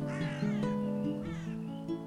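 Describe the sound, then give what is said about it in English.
Crow cawing after a fall from a tree: a few harsh, drawn-out caws with wavering pitch ring over a steady tonal background, fairly loud throughout. “Oh, no! A crow!”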